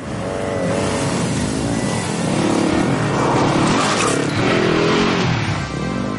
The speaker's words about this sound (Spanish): Se monta, se coloca el casco y se baja la visera del mismo acelera y se aleja a toda velocidad por una carretera secundaria y solitaria.